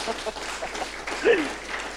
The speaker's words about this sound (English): Christine, thank you so much. I think we should give Christine a clap for what she's done.